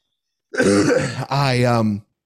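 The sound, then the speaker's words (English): Two loud, rough throat-clearing coughs from a person with mucus congestion, each burst strained and voiced, following one another with a short gap. “Forgive all the coughing. It's a side effect of this mucus nonsense.”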